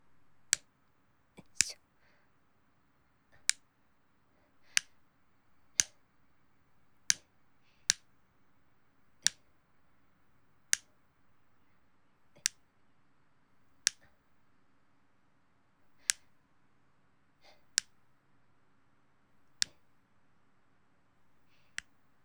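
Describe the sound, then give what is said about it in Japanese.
Nail clippers snip a boy's hard fingernails, many sharp, crisp clicks spaced irregularly across a quiet background. “やはり男の子の爪って硬いんですね。自分の爪切るよりちょっと力入れないとです。”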